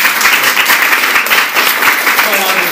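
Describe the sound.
Conference audience applause welcoming a speaker to the stage, a dense, steady wash of many hands clapping for about three seconds.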